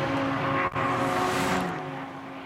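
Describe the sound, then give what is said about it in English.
A race car, the race leader, roars down Conrod Straight during the Bathurst 12 Hour race. The engine is a loud, steady drone with one brief dip, then slowly fades toward the end. “To send on Conrod straight, there's the race leader, which is going at a fair clip at the moment with Matt Campbell behind the wheel”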